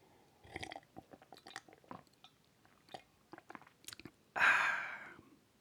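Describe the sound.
Noisy eating and drinking by a man: a quick, irregular series of wet chewing and crunching mouth sounds, ending with one louder, longer breathy burst.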